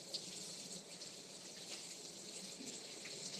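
Tap water running while food is washed, a continuous, faint gushing stream with small splashes and no voices.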